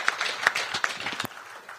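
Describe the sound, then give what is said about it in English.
Audience applause for the panelists at a panel discussion, heard as fairly faint, scattered hand claps with a few sharper individual claps standing out, and no speech over it. “Let's just give a big hand clap for our panelists here before I open the floor for you to ask questions.”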